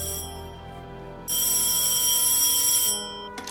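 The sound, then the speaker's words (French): A telephone rings on a call placed to an English number. One bright, sustained electronic ring burst stands out over a steady hum, then fades into a brief click. “L'homme décroche son téléphone et compose un numéro anglais.”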